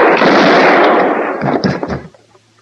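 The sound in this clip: A single loud gunshot blasts out during an attempted arrest and rumbles away over about two seconds, with a few fainter knocks in the fading tail.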